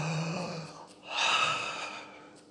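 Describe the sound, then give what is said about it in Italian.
A person draws one deep, breathy gasp of amazement that swells and then fades. A softer breathing sound comes before it. “hai mai fatto un respiro così, come che bella cosa, che cosa stupenda.”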